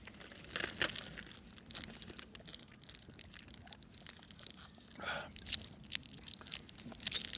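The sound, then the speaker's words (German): Crinkling and tearing of a Ballisto chocolate bar wrapper, then crunchy bites into the bar. A few sharp rustling bursts stand out against a soft, steady noise floor. “Ah ja, dann kann ich das währenddessen mal schnell in ein Ballisto beißen.”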